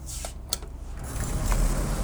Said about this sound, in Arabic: أوف، نحن كنا عم نظبط المكيف، هلأ لنفتح الشباك